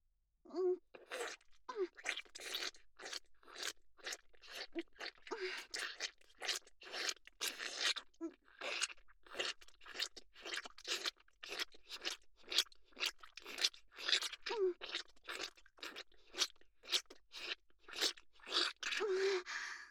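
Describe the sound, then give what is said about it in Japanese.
Wet mouth sounds from lips and tongue moving rapidly, a long run of quick smacking, slurping bursts at an uneven rhythm, close and soft with no talking. “私の口の音、ちゃんと意識して聞いててくださいね。”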